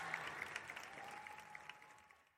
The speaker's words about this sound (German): Die Zuschauer aber sind begeistert und klatschen laut Beifall.